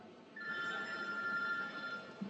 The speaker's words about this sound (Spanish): Eso es el celular que está sonando.